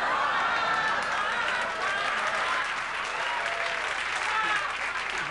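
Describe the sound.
A comedy club audience breaks into applause, a sustained, even wash of clapping hands that stays strong throughout.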